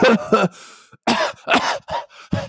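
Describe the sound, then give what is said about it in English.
A man imitates coughing, mimicking an old man on a bus who coughs without covering his mouth: a run of harsh, raspy cough bursts in two clusters, loud and alone with short gaps between them. “he started coughing like”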